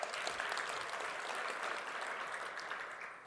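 An audience applauds with dense, steady clapping that holds throughout and eases slightly at the end.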